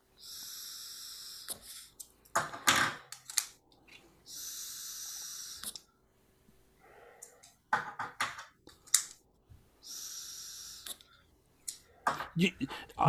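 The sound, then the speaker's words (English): Airy hissing draws on a vape with a 0.8 coil and airflow fully open: three steady inhales of about a second each, separated by breathy bursts and soft clicks, all fairly quiet. “I know you guys can hear the draw on these through the microphones and stuff”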